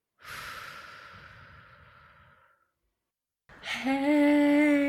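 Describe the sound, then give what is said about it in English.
A single long, deep breath drawn and released in a guided breathing moment, airy and loud and slowly fading, followed after a short silence by a sustained tonal sound. “we'd like to invite you to drop in and take a breath with us. Inhale. Exhale.”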